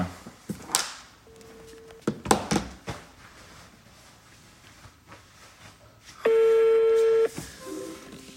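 A telephone number being dialed for a call: a few short keypad beeps among handling clicks and knocks, then one longer steady tone held for about a second before stopping.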